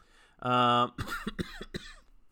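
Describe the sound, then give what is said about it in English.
A person coughs after choking on their own saliva: a brief voiced sound, then a rapid series of harsh, sputtering coughs. “choked on my own spit”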